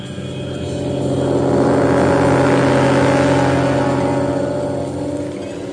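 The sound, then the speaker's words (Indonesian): A car engine pulls away from a parking lot, its humming motor swelling in loudness over the first couple of seconds, holding steady, then easing back toward the end. “Sampai di parkiran, kami pun menyalakan mobil dan langsung bertolak ke Bandung.”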